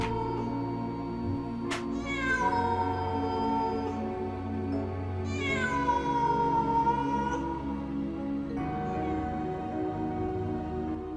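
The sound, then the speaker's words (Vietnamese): A black cat meows in an alley at night, giving three drawn-out, wavering cries. Each cry starts high and slides downward in pitch, over a steady low background hum. “Trong không gian, duy nhất còn tiếng mèo kêu.”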